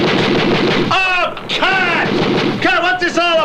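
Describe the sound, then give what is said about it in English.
Dull gunfire booms and rumbles break in among excited voices as bandits appear. “Supposed to be any firing?”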